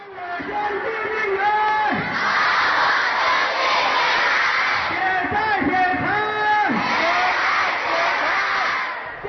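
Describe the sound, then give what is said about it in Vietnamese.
Villagers in a police-surrounded village shout protest slogans together, a loud, continuous roar of many overlapping voices with repeated rising cries, sustained throughout without pause. “ngày nào dân chúng trong làng cũng tụ họp để phản đối và hô to những khẩu hiệu như nợ máu phải trả bằng máu.”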